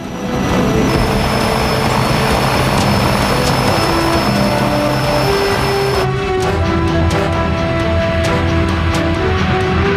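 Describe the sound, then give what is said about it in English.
A loud, steady aircraft engine drone from a plane descending over smoke as a skydiving team prepares to jump. The layered, humming tone continues without a break and shifts in character partway through. “As the plane descends over the smoke, the team jump.”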